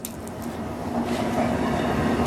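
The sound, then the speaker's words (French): A train at a station platform gives off a steady rumble with a low hum and a faint higher hiss. The sound grows slightly louder and carries no clear voices. “Il y a un train. Regarde le train. Il vient en Italie.”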